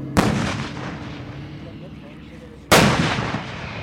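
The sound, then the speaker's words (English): Two self-propelled howitzers firing single shots during target practice at a military base: two loud, sharp booms a few seconds apart, each followed by a rumbling decay. “two self-propelled howitzers still have not begun their target practice. But then, we're told it's finally going to start.”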